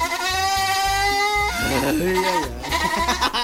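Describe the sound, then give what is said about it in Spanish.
A goat bleats in a loud, nasal, wavering cry, followed by more quavering bleats, with a steady rhythmic low thumping underneath. “¿Le puedes poner el audio del chivo, por favor?”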